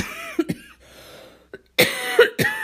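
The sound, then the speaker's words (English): Coughing from a person with a chronic cough linked to asthma: a few sharp, harsh coughs in quick bursts, followed by a longer rough stretch of coughing and throat noise. “excuse me. Grab some water. I have a chronic cough.”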